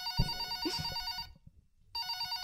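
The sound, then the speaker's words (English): A telephone ringing after a call is dialed: a steady, buzzy ring that stops for a moment of near silence and then starts again, with faint clicks beneath it. “will be Chargers general manager Tom Telesco dialing”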